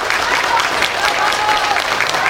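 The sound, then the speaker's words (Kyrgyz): A full hall of spectators gives sustained applause to the actors after a stage play, a dense, even clatter of many hands clapping that continues without pause. “Аны көрүүгө зал толо эл келип, актёрлорго узакка созулган кол чабууларды арнашты.”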